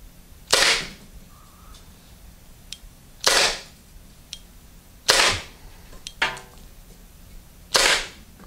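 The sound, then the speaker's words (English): A Byrna non-lethal self-defense launcher fires rounds, each shot a sharp, loud pop with a quick decay. The shots are spaced a couple of seconds apart, with softer handling clicks between them. “So let's see what this does after 5 rounds have been fired through the Byrna. And let's see what she does, shall we? Back on fire, and away we go.”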